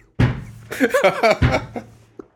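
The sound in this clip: A head bangs against a table, making two heavy, dull thuds with a brief vocal sound between them, followed by quiet with faint small knocks.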